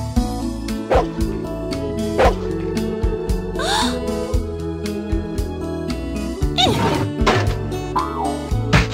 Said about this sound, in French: Cette nounou était un gros chien de Terre-Neuve appelé Nana.